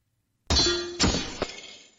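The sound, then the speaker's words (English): Shield bashing against shield in a video game: a sudden, loud metallic clang, followed by two lighter knocks and a ringing tail that fades away. “Shield bashes shield. At the last minute, you adjust your attack to deflect the enemy thrashing.”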